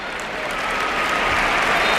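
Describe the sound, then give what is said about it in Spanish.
Stadium crowd ovation and applause as a substituted player leaves the pitch during a Spain national team football match; dense, continuous clapping and crowd noise that swells slightly, with no talking. “Escuchamos la ovación.”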